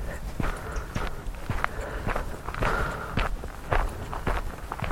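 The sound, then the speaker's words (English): Footsteps of a walker climbing Walton Hill on a cool, windy day: many steady, evenly paced steps in a regular walking rhythm, with a constant low rumble beneath them. “Just currently ascending Walton Hill for a bit of a walk.”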